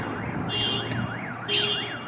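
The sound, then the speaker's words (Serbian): A car alarm whose tone mimics a police siren, with a loud, rapid rising-and-falling wail that repeats steadily throughout. “a čuje se i zvuk kao policija, on je i policija i alarm.”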